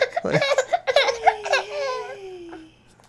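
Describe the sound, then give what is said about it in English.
A tired baby boy whines and fusses in a run of short, high vocal bursts, ending in a longer tone that slides slowly downward and fades; fairly faint overall. “if you hear a bunch of, like, cut out parts, it's because there's a baby whining in the background.”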